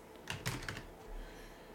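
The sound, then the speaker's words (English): Quick keystrokes on a computer keyboard while typing a search on a desktop computer: a few soft, crisp clicks close together, then a quiet stretch with faint background hiss. “Of course, I have to type it out more.”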